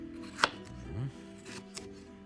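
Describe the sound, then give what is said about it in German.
A knife chopping vegetables such as bell peppers and aubergine into small pieces, heard as a couple of sharp knocks on a board, the first louder, over a faint low hum. “Und klein hacken.”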